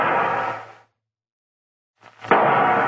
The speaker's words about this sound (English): What's he shooting at now?